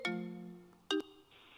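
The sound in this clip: A phone rings faintly with an incoming sign-in verification call, a soft electronic chime note decaying slowly. A second short note follows, then a quieter sustained tone.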